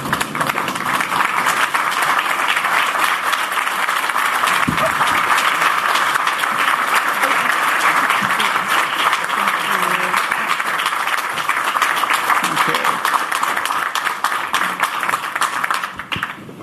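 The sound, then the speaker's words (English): Standing ovation from an audience welcoming Ireland's ambassador to the United States at the City Club of Chicago: dense, loud clapping that holds steady for the whole stretch, with no speech over it. “So please, everyone, please rise to your feet and give a warm City Club welcome to Ireland's ambassador to the United States, Geraldine Byrne Nason.”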